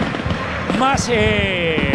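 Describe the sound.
Rosario Central football fans set off blue and yellow fireworks in a stadium before a match against Estudiantes, making a dense crackle and scattered pops beneath a commentator talking excitedly.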